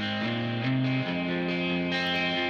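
Distorted electric guitar plays a counter-riff in a song mix: loud, sustained, buzzing notes that step between a few pitches, each held before the next change.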